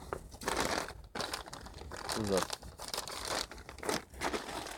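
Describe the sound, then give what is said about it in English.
Paper stuffed into a drop-box envelope crinkles and rustles in several uneven, fairly loud bursts of crumpling and scraping. “Is there an envelope too? Yeah. Oh, I guess you just stuff it in here and then they...”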